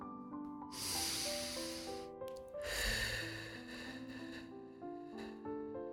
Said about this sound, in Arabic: ناخد نفس عميق من منخارنا منطلعه من تمنا أو من منخارنا المريح لقلنا، بس دايما مندخله من منخارنا من أنفنا.